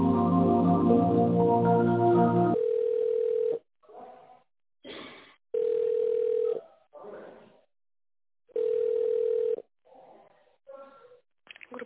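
Telephone ringback tone as a call is put through to a company secretary: three steady mid-pitched beeps, each about a second long and spaced roughly three seconds apart, with brief muffled sounds in the gaps.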